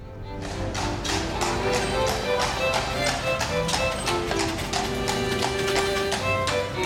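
Footsteps on cobbled steps in Shaftesbury, staged as an audio drama effect: a steady run of many hard, clopping taps over a sustained background tone.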